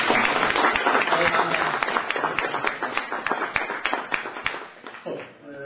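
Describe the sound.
Audience applause with many sharp claps in a brisk, fairly even rhythm. It holds strong at first, then thins and fades toward the end.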